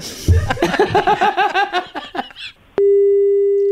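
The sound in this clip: A steady telephone tone sounds as a call is placed to a prize winner. It follows a run of rhythmic laughter, starts abruptly and holds flat and unbroken to the end.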